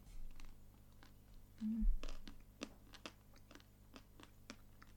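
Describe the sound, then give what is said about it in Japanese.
Teeth bite through the cold, crispy chocolate coating on vanilla ice cream, giving many faint, sharp crunches and crackly snaps at an uneven pace. “あ聞こえるかなこのチョコレートのパリパリ感がいいんですよね”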